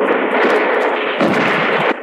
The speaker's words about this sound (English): Bullets came through my window, ricocheting from wall to wall.